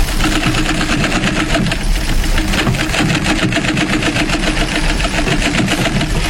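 A sewing machine runs steadily, its needle mechanism hammering out a fast, even mechanical clatter. The clatter continues unbroken for the whole stretch, with no talking over it.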